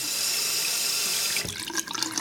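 Water runs from a tap down a sink drain, a loud, steady rushing stream that breaks after about a second into uneven gurgling and splashing.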